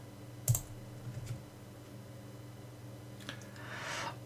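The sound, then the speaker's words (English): Mouse clicks on an online spinning wheel: a few faint, sharp, brief clicks spaced apart, followed by a soft rising hiss near the end. “So I have a just one of these online spinny wheel things. They are all there. So I'm going to click”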